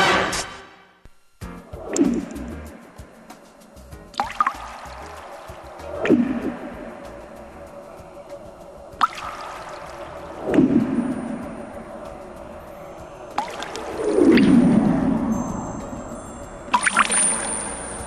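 Sparse water drips, several widely spaced, faint plinks, each with a short resonant tail that glides in pitch, set against an otherwise quiet background.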